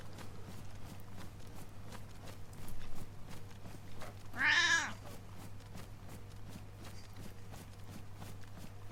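A cat gives a single clear meow partway through, short and bright, heard alone over a steady low hum with no talk.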